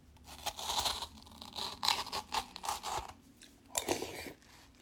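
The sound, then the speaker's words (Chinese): Someone bites and chews watermelon with no talk, making a run of many wet, crunchy bites that come in uneven bursts and then a louder crunch near the end. “或者听到什么奇怪的这个音效呢，可能是因为我在吃西瓜”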